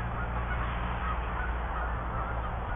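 Geese honking near a cornfield, a loud, steady chorus of many overlapping honks that carries on without a break from start to finish.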